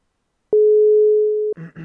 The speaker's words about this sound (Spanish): Llamada. Llamando.